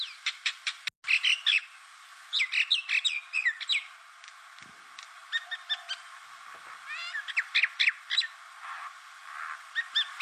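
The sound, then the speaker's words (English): Common myna, an invasive bird in Queensland, calling in a long run of varied chirps, whistles and harsh squawky notes, given in quick repeated bursts with short pauses and one sharp click early on. “This is the sound of the common minor bird, also known as the Indian minor bird.”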